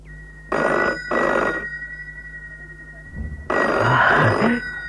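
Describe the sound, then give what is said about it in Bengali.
A telephone bell rings loudly in bright metallic bursts, two short rings followed by a longer, sustained ring after a brief pause. “এখন যে কোনো ক্রিং ধ্বনি ফোনের ধ্বনি হয়ে উঠতে পারে। আরে ও পোড়া ফোন, বাজ না রে।”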